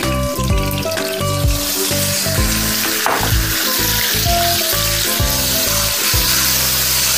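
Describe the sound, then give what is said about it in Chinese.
Loud, steady sizzle of marinated beef slices frying with ginger, scallion and garlic. Irregular crackles and pops run through the whole clip without pause. “放入姜片、葱段、蒜瓣，随后放入腌制好的牛肉片，”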